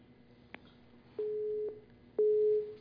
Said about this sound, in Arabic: للأسف انقطع اتصال أخينا زكريا من الجزائر فحاول مرة أخرى